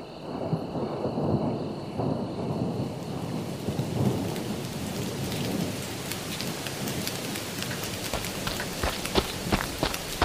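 Steady rain and rolling thunder in a dramatized story as a man shelters inside a mosque on a cold night: dense, continuous hiss of rainfall throughout, with low rumbling beneath and scattered sharper drops.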